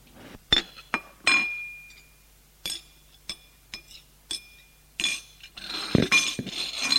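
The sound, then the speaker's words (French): A plate clinks as an egg is served, giving a series of bright, ringing chinks of china and cutlery at irregular intervals, some with short glassy tails, ending in a denser clatter. “Tiens, passe-moi ton assiette. que je te mette ton œuf.”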